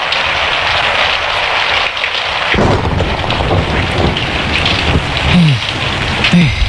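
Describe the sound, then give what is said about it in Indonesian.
Heavy rain pours down in a loud, unbroken hiss while deep thunder rolls and rumbles beneath it, growing heavier partway through and continuing to the end; no voices are heard. “Hujan labik.”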